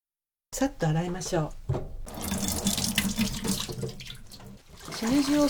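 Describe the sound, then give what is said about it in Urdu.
Tap water runs steadily into a sink while trimmed shimeji mushrooms, split into small clusters, are rinsed under the stream. A voice speaks briefly at the start and end. “شیمجی کھمبیوں کے سرے کاٹ کر انہیں 3-3 کھمبیوں میں تقسیم کر لیجیے۔ اس کے بعد انہیں اچھی طرح دھو لیجیے۔”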